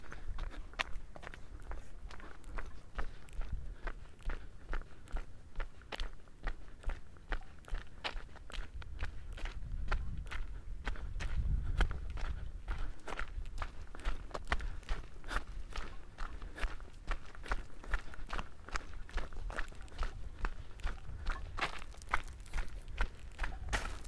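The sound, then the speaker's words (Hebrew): Footsteps of a person running slowly through a forest: many soft, crunching footfalls in a steady, even rhythm throughout, with no talk. “אני אתחיל לרוץ לאט.”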